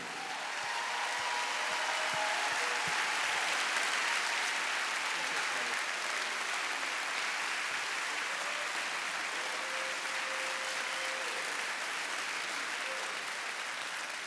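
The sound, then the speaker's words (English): Audience applause as a church crowd stands to welcome a guest: dense, loud clapping that stays even and unbroken for the whole stretch without fading. “Would you please stand your feet, put your hands together, and help me welcome and honor Kelly Shackelford.”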